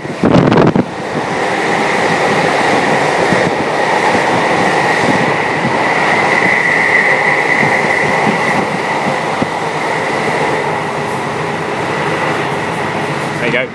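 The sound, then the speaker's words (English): A Cornish train rushes through the West Cornwall countryside on a dark, warm October evening, heard through an open window: a sudden burst, then a constant loud roar of wheels and air with a steady whine throughout. “This is the sound of a Cornish train rushing through West Cornwall on a dark but warm October's evening.”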